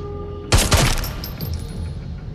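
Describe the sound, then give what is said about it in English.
A gunshot in a film scene at a dig site, fired into a dead scientist's head: a loud, sharp blast followed closely by a second crack, then a fading, noisy tail with no talk. “Back at the dig, Duke shoots one of the dead scientists in the head.”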